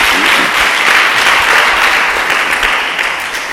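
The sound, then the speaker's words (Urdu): Loud, sustained applause from a church audience during a worship service: dense, continuous clapping that fills the whole stretch and eases off slightly near the end. “یسوع کے لیے ذرا زوردار تالیاں دیں گی۔”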